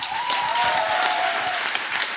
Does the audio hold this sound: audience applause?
yes

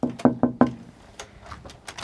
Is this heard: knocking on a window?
yes

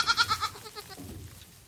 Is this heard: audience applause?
no

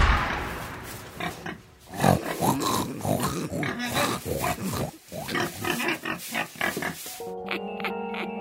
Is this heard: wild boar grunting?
yes

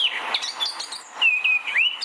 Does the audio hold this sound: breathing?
no

